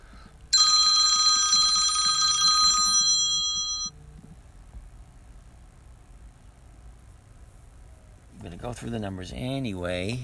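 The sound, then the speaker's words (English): A second phone rings with a bright, electronic ringtone whose tones repeat in a steady pattern for about two seconds. A low pulsing continues briefly, then near silence follows before someone starts talking. “That was just a phone call on my other phone.”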